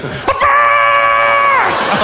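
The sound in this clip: A man's voice blended with a hen's clucking makes one loud, sustained squawking cry, strained and harmonic, after a short sharp onset.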